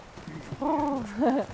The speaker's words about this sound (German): Oh, jetzt galoppiert er schon.